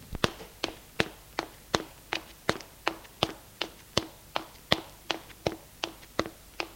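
Footsteps of two people climbing stairs in a hotel, a long, steady series of sharp, evenly spaced footfalls at a walking pace, with no talking.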